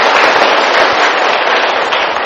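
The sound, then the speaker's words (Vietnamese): Applause from an audience at a Buddhist dharma talk, a dense, steady clatter of clapping that stays loud throughout, with no voices over it. “cho anh tràng pháo tay đi”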